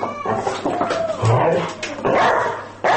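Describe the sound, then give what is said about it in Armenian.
A dog barks a few short, sharp times on command, each bark spaced apart with softer whining and rustling sounds in between. “Իսկ երեք հատ։ Երեք հատ է դուս, երեք հատ հաչա։”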